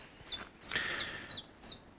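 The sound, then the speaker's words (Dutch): A chiffchaff singing in early spring near the Zwanenwater. About five short, high, bright notes come at an even, steady pace, faint and alone. “Ik vind dat het geluid van een tjiftjaf en een fiets een beetje het geluid van het begin van de lente. Het zijn een van de eerste vogels die je hoort. Maar nu laat hij zich ook nog even horen voor het Zwanenwater.”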